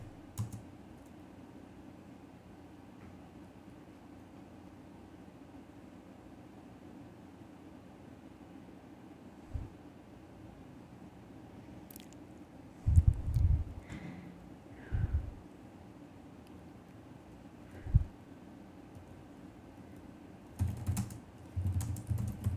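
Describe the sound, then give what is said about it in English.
Typing on a computer keyboard: short, sparse bursts of key clicks separated by long quiet stretches over a steady low hiss, with the busiest clatter in the second half. “I'm trying to type that down.”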